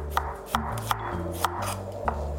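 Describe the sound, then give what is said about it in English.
A knife thinly slices garlic for a Korean mung bean pancake batter, giving five light, crisp taps at an uneven pace over a steady background hum. “So I'm just going to slice the garlic very thinly.”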